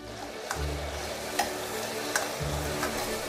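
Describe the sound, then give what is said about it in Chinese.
Scallion, ginger and garlic slices stir-fry in a little oil in a pan, giving a continuous soft sizzle broken by a few sharp scrapes or taps of a utensil, with no talking. “锅中放少许油，加入葱姜蒜片等，炒出香味，加入酱油，”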